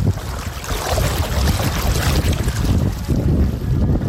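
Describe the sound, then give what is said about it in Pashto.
Clear water flows in a steady, rushing hiss with a broad, full texture. The sound stays constant and fairly loud, and some wind buffeting is mixed in. “خو تاسو به دغه د اوبو غږ اورئ، زه ورنږدې کېږم.”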